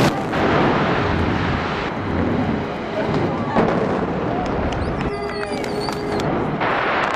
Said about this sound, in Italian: Avete sentito il botto? È caduto quindi il Punta Perotti, rimane soltanto l'ultima torre di questo complesso.